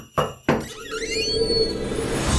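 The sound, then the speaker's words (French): Door opening sound effect: two sharp knocks, then a wavering, drawn-out creak that fades into a steady, continuous hiss. “C'est l'heure d'ouvrir une porte.”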